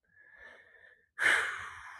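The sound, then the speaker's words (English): Heavy, labored breathing from a man who is struggling and out of breath: a faint wheezy breath with a thin whistling tone, then a louder, rushing breath that slowly fades. “Bloody starting to breathe heavy. Holy Christ, what's going on with me?”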